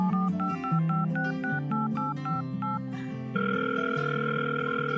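Telephone tones play as a call is placed: a quick run of short beeps at shifting pitches, then a steady held tone, all without voices.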